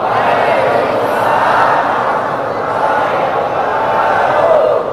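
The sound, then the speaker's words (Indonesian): A large audience answers an Islamic greeting in unison, a loud, sustained wash of many voices holding steady from start to finish. “Dari bunyi sambutan salamnya sepertinya sedang puasa.”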